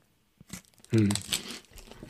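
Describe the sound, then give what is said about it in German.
Crinkling of a chocolate wrapper as someone eats chocolate: a few short, crisp rustles and crunches, with a brief vocal sound in between. “Ich mach die Wälder gerade nicht kaputt, du machst gerade die Wälder kaputt. Ich esse hier nur meine Schokolade.”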